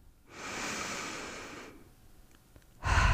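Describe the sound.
A person breathes in slowly while lying on a mattress during a back-stretching exercise, a soft airy rush lasting over a second. After a short pause, a louder breath begins at the very end.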